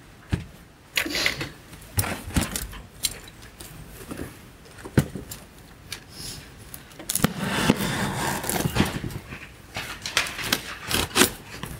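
An evidence package holding a pair of shoes is opened in a courtroom, giving irregular rustling, crinkling and sharp clicks of handling. The noise gets denser and louder through the second half.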